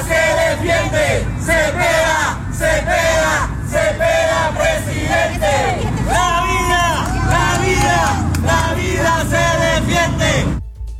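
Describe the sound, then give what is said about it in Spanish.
A large crowd of Colombian supporters chants rhythmically outside an election results venue. Many voices sustain a loud, steady, sing-song chant with repeated phrases, and it cuts off abruptly near the end. “Sin embargo, pudimos registrar parte del ambiente que se registraba momentos antes de que se conocieran estos resultados. Los invito a escucharlo.”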